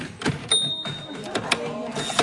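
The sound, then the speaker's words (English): Mechanical clunks from a Perkins Brailler, a typewriter-like machine punching dots into paper, come as a few sharp, irregular strikes. A thin, steady high tone hangs between some of them. “others practice their skills on Perkins Braillers, typewriter-like machines that punch dots into the page.”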